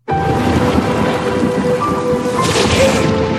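A thunderstorm in a film trailer: loud, continuous roaring rain over a deep rumble of thunder that persists for the whole stretch without pause.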